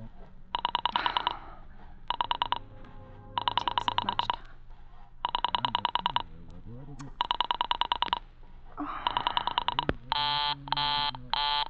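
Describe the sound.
A telephone busy signal: a harsh, buzzing tone repeats in short bursts with a regular on-off rhythm, many times over, turning into a faster-pulsed variant at the end.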